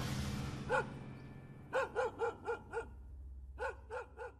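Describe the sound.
A dog barks in short, ringing yelps, fairly faint: a single bark, then a quick run of five, then three more after a short pause.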